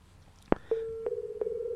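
A telephone call cuts off with a sharp click, then a steady mid-pitched line tone begins and runs to the end with faint regular pulsing. No one speaks.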